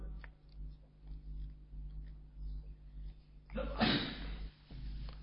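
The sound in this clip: One sudden sneeze bursts out during an Arabic religious lecture, a sharp breathy blast standing out against a quiet background with a steady low hum.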